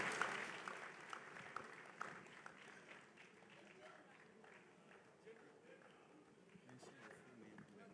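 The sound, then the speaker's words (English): Faint audience applause at a church service welcoming a man up to share his testimony: steady clapping with a few sharper claps near the start, with voices mixed in. “Let's put our hands together and welcome Brother Matthew.”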